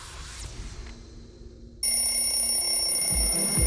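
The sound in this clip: A radio station jingle in which a bright electronic alarm clock starts ringing abruptly partway through. A soft, muffled start gives way to a steady, high, insistent ring that continues to the end.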